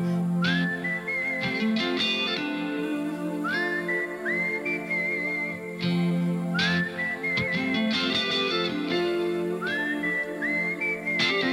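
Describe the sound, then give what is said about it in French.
A whistled melody of rising, sliding phrases repeats several times over a steady full-band accompaniment in a rock ballad, the whistle clear and prominent above the instruments throughout. “Mais pour le moment, il est temps de siffler un peu.”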